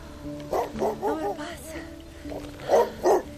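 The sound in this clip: A dog barks in a few bursts, with short yips and whiny, pitch-bending barks in between, then two louder barks near the end.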